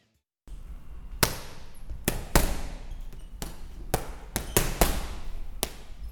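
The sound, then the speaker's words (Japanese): Punches thud into a sandbag during a fighter's training session: many sharp, heavy impacts land at irregular intervals over a steady background hiss, with some blows coming in quick pairs. “いや、ものすごい迫力です。いや、懸命にサンドバッグを叩く音が皆様にも聞こえると思いますが、当たったらひとたまりもなさそうですね。”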